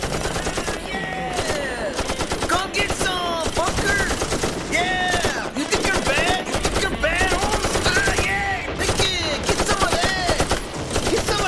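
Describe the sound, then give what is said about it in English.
Sustained machine-gun fire from a soldier at a bunker near a bridge in a war scene. Rapid, dense bursts of shots run almost without a break, layered with loud, busy battle noise. “What are you shooting at, soldier?”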